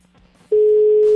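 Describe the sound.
Ringback tone on an outgoing telephone call: a single steady mid-pitched tone starts about halfway through and holds loud and unbroken to the end, preceded by a faint low hum.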